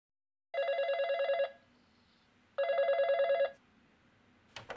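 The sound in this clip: A telephone bell rings in two long bursts separated by a pause of quiet, each burst a bright, rapid metallic trill, followed by a short click at the very end.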